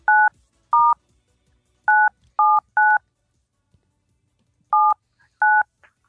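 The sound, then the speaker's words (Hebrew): Telephone keypad tones sound as an international number is dialed: seven short, steady electronic beeps in an irregular rhythm, with a longer pause before the last two and near silence between them. “טוב, בואו נחייג. יש לנו את הטלפון שלו?”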